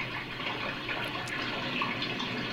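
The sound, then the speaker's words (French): Running water from an opened tap in a bathroom, filmed for a 1973 performance piece: a steady, even hiss of flowing water with no breaks or voices throughout. “On voit une main qui ouvre un robinet d'eau.”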